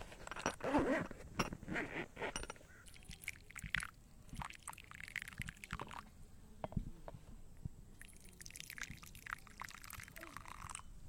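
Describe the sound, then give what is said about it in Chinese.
Rustling and clinking of a tea set being taken out and laid in place. Light handling noises and small knocks of cups come in a few quick bursts, with some clearer clinks near the end. “这个夏天我们拥有这样的声音， 掏出茶具的声音， 这是摆茶具的声音。”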